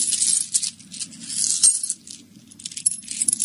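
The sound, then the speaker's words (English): Small metal items rattle in a sailor's pocket, including a penknife, with bright continuous jingling and clinking in uneven bursts that ease briefly halfway before picking up again. “what you got in your pocket that makes all that rattling? Just sailor things, I guess. Let me look.”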